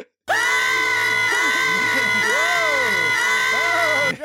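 A live audience cheers and shouts, breaking out suddenly into loud, continuous noise full of high whoops and screams that holds for several seconds before dropping away.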